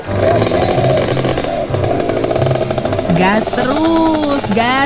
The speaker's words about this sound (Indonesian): Gas terus. Lo. Ini lo kendaraan langka yang harus dilindungi keberadaannya.